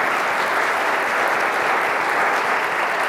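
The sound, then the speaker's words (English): Audience applause at a morning gathering welcoming a guest: dense, steady clapping from many hands, loud and even throughout with no break. “give a round of warm applause and welcome to Ryan”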